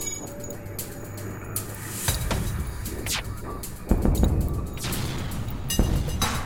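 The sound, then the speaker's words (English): Laser weapons fire at an enemy ship in a space combat video game, with several sharp zapping bursts and booming impacts over a steady electronic background. “my last laser is going to go after their weapon system”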